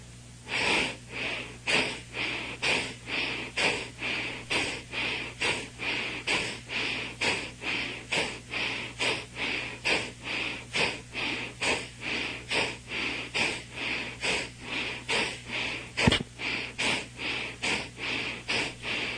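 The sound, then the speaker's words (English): Breathing during the third round of a breathing exercise: many forceful, regular breaths in a steady, quick rhythm, each a short airy rush through the nose or mouth, continuing evenly throughout. “exhale fully, inhale fully, and going back to normal breath.”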